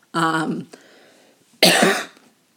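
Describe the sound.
A person clears their throat twice. The first is a voiced, rasping hum and the second, after a quiet gap, is a harsher, breathy burst. Both are fairly loud against near silence.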